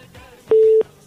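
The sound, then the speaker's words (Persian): A telephone busy tone sounds after a call is disconnected: a single loud, steady mid-pitched beep lasting about a third of a second, with faint hiss before and after. “بله خب تماس دوست ما قطع شد و میرین تماس بعدی رو میگیریم”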